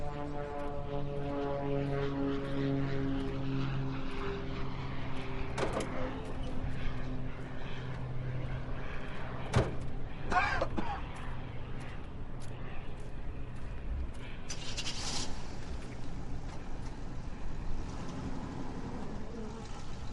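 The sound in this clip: A car engine runs as people drive off, a steady droning hum that holds for the whole twenty seconds, with a few short, sharp noises breaking through.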